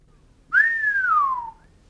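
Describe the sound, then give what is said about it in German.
A man whistles to himself: one clear, sustained note that rises briefly, then glides downward for about a second, alone against near silence. “Ich pfiff vor mich hin.”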